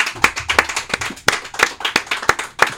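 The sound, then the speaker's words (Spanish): A small group clapping for the musicians at the close of a show, many sharp, distinct claps in an irregular rhythm that read as only a few people applauding. “El aplauso con mucho cariño para ustedes.”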